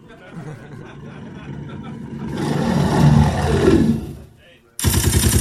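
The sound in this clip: A bear roar sound effect at a live comedy show, a rough growl that swells, holds and fades, then a sudden loud burst of rapid assault rifle gunfire.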